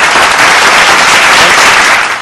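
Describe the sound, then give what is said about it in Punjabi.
Studio applause greeting a caller's correct answer on a quiz phone-in: loud, dense clapping at an even level that tapers slightly at the very end. “ਤੁਹਾਡੀ ਪੁਜਾਰਤ ਲਈ ਤਾਲੀਆਂ”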